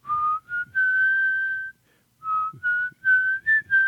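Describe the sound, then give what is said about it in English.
Clear whistling of a simple tune in two short phrases split by a brief pause, each built from sustained notes that step upward in pitch, loud and alone with no talk. “Oh, wait, is it that whistling? Yeah. I wondered what that was. Yeah, that's the sound of doom.”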